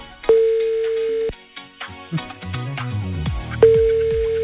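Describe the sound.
Telephone line tones as a call is placed to a contest winner: a steady low tone, then a run of shorter stepped tones, then the steady tone again.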